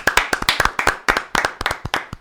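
Many sharp hand claps from an audience applauding players, with uneven, overlapping bursts of fairly loud crisp claps and no talk.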